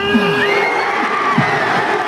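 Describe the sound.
Crowd of PSG fans in the streets of Périgueux celebrating the Champions League title, cheering continuously with shouts and whoops rising above the roar.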